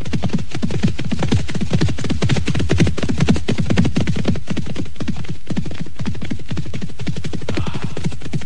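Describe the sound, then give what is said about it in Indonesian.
A small mounted escort of soldiers' horses galloping off: many rapid, closely packed hoofbeats in a steady driving rhythm, loud and continuous throughout, with no talk. “serta kelima prajurit pengiring itu segera menggebrak kuda-kuda mereka. Kuda-kuda itu segera berpacu.”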